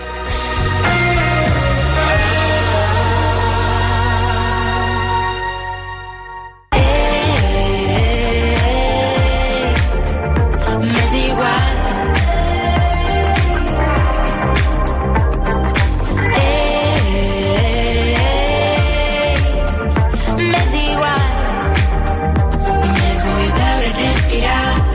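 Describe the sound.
A band's song plays loud and alone. A sustained intro over a deep low drone cuts off abruptly, then the full band comes in with a dense, steady beat and layered instruments.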